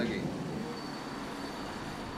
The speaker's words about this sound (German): Langsam fahren wir den Bahnhof von Epfenhofen an. Er liegt hoch über dem Ort und eigentlich fasst die Lok hier nur frischen Mut für die nächste Etappe.